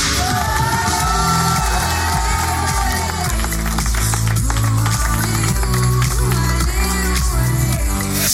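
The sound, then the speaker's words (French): Studio audience applause and whoops fill a public radio studio during a live show, loud and continuous for the whole clip, with steady music running underneath. “Applaudissements pour elle.”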